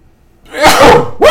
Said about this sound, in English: First time I think I've sneezed ever on this podcast.